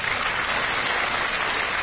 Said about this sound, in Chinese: 话音一落，会场响起了热烈的掌声